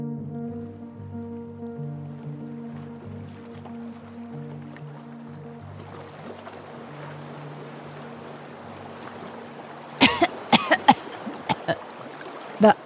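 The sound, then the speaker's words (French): A paddle works the water from a small boat out on the ocean, with soft sloshing beneath low sustained tones. Near the end come a few sharp splashing knocks. “Et elle se mit à ramer avec l'une des deux pagaies que Mazen avait pris soin de cacher dans le hamac du mort.”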